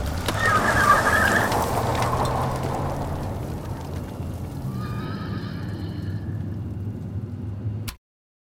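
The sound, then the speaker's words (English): A unicorn's neigh, performed as a horse whinny in an audio drama. A loud, shrill whinny opens over low rumbling noise, which gradually thins out before cutting off abruptly. “That's a good unicorn. Aren't you pretty? Fucking go! Go!”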